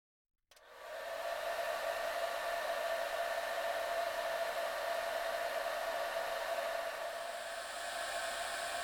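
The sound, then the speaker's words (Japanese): A hair dryer switches on abruptly after brief silence to dry a client's hair, then blows in a steady, loud whooshing roar with a constant humming tone, easing slightly near the end. “髪の毛、乾かしていきますからね。”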